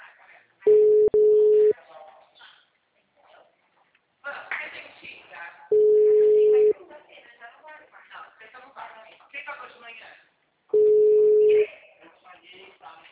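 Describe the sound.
Ringback tone while a phone call is being placed: three steady, mid-pitched one-second beeps spaced about five seconds apart, with a person talking quietly in the gaps between them.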